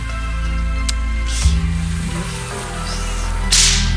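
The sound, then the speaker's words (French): A whip cracks to kill bed bugs on a boat: a few sharp, snapping lashes stand out over a steady low droning background. “Je vais aussi me servir du fouet pour tuer les punaises de lit.”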